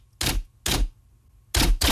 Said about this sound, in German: Warum tippst du eigentlich noch mit der Schreibmaschine?